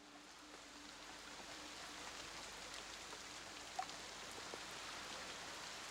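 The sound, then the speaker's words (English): Rain falls at nightfall as a faint, steady hiss of drops that runs unbroken throughout, with one soft tap partway through. “It's nightfall. It's raining.”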